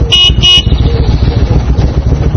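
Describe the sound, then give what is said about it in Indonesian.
Loud motorcycle engine roar, opening with two short, high horn toots, then a steady rumbling drone. No one speaks. “Sepeda motor. Bahasa Arabnya darajatun nariyah.”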